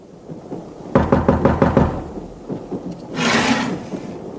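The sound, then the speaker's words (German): Knuckles rap on a compartment door aboard a train, a quick, evenly spaced run of several loud wooden knocks, followed by a broader rushing noise. “Ich ging zurück und klopfte an die Tür meiner Freundin.”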